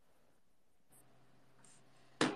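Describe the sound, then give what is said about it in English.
Faint, scratchy pen strokes on paper as someone sketches quickly, soft and continuous, ending in a brief, louder scrape. “Okay, so let me draw this quickly.”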